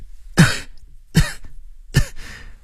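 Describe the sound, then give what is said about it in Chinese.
Three light coughs in a row, each a short, breathy burst with a soft tail, the last one trailing a little longer, spaced evenly and heard alone. “吴继平轻轻地咳嗽两声，又顺便撇一撇喉咙里有没有血腥气味”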